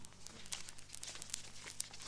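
Playing cards shuffled and dealt during a poker game: quiet, rapid papery crackling and flicks over a low hum.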